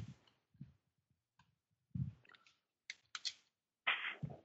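Faint typing on a computer keyboard: a few sparse, irregular key clicks and soft taps separated by short silences.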